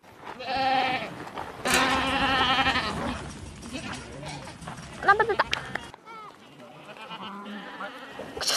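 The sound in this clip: Sheep bleating as they are herded on a farm, several wavering calls over a steady busy background with a few sharp clattering knocks partway through.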